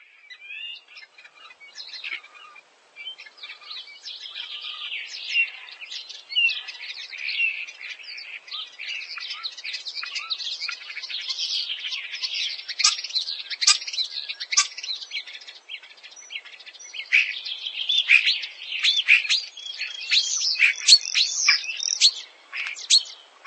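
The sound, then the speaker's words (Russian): Starling song, a long, dense stream of varied high chirps, whistles and clicking notes that keeps going without pause and grows somewhat louder toward the end, with no voices. “Скворец.”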